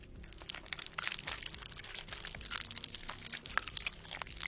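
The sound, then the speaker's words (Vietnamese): Crunching chewing from a man biting into a rat's head: many dense, crackling crunches and crinkly snaps that run continuously at a steady, fairly faint level without pause. “Cơ miệng của ông bắt đầu di chuyển, âm thanh phát ra rồn rột, tựa như đang nhai cái gì.”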